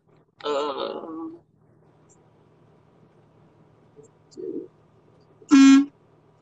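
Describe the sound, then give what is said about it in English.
Car horn honking in one short, loud, tonal blast near the end, after a stretch of talking and a quiet pause. “Uh-oh. I heard the toot.”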